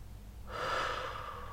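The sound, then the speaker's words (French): A deep inhalation during a breathing and relaxation exercise: after a quiet moment, a soft airy intake of breath swells and then holds steady to the end, alone and fairly faint. “Inspiration, rétention de l'air, douce tension de tout le corps,”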